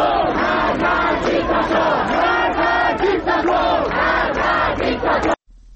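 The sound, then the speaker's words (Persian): Student protesters chant slogans at a university sit-in, a loud crowd of voices shouting in a rhythmic, repeated cadence that continues steadily and then cuts off abruptly near the end. “هم اکنون دانشجویان در اونجا تحسنی و تجمع اعتراضی رو برپا کردن و در حال شعار دادن هستن. صدای یکی از شعارها رو میتونیم بشنویم.”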